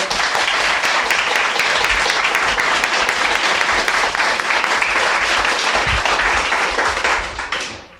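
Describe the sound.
Audience applause after a live interview, dense and loud for about seven seconds before tapering off at the end.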